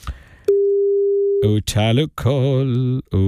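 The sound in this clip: A steady electronic phone tone sounds for about a second while a call is placed, then people begin talking.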